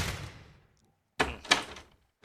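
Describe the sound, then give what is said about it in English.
Knocking on a door, heard as a few quiet, dull thuds with short gaps between them, following a fading sound at the start. “you don't have to knock again. No. Don't. Just push it open.”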